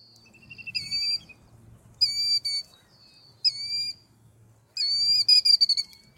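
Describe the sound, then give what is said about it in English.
Calls of migratory birds, American woodcock and killdeer: several bursts of high, shrill whistled notes, with short pauses between them and the densest run near the end. “So it's with relief that I've welcomed back the sounds of migratory birds like American woodcock and killdeer”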